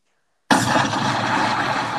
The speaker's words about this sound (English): I had to drop a bomb for him. That's all. Get ready for the sound effects too.